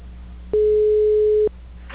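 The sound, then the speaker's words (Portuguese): A single steady telephone ringing tone on an outgoing call, one unbroken mid-pitched beep lasting about a second, set against faint line hiss with no voices. “Tá chamando.”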